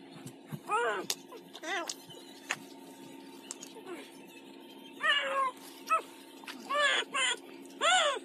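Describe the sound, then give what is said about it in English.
Many short, high, wavering cries from a cat, each with a bending pitch, come in irregular bursts over a steady low hum. “That's a cat, right?”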